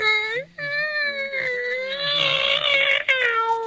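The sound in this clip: A person imitates a cat's meow with one long, drawn-out, wavering yowl. It is rich in harmonics, breaks briefly near the start and holds a strained, nasal tone until it ends.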